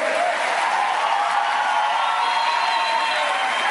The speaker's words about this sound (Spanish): Estos señores que ven aquí, denles un aplauso, por favor. ¡Pero fuerte!